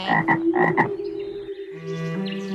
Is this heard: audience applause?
no